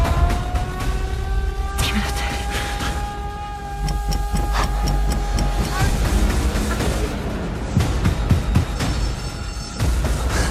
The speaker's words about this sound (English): Here's your Bwongs from the wave. It's a movie that's out right now.